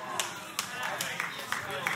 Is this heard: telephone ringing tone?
no